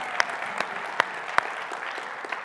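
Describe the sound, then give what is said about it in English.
Audience applause in a church, given to a decorating team: a fairly faint, steady patter of clapping with a few sharper individual claps standing out. “Would you stand up? Is anybody in here? Oh, good. We applaud you.”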